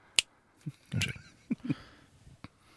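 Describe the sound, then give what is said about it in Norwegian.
Crunchy chewing of peanuts close to the mic, a few sharp crunches and clicks separated by quiet gaps. “Slutt å spise pianøtter, du Og så ja. Snakke i stedet Jeg har ikke spist før I dag, så jeg var veldig sulten”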